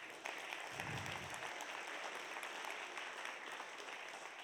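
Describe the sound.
Faint, steady audience applause welcoming a speaker to the front, a soft continuous patter of clapping hands with no clear peaks.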